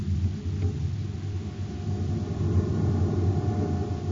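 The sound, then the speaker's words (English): A steady low rumbling hum comes from a high-frequency generator running aboard a lab ship, set to emit a frequency meant to kill insects. The hum stays even and constant throughout, with no talk. “Turn on the generator.”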